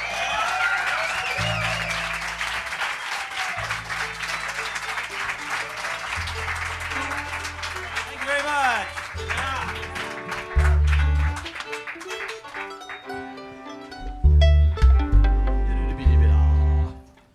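An audience at Passim applauds as a band is welcomed on stage, with steady clapping that thins out, followed by scattered instrument tuning notes.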